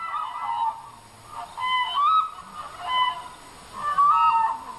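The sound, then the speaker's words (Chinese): Demoiselle cranes calling as they fly over a village in Yunnan, a series of loud, bugling honks in repeated bursts with brief pauses, high and nasal, with no talk. “飞过来了，飞过来了，梭羽鹤飞过来了。”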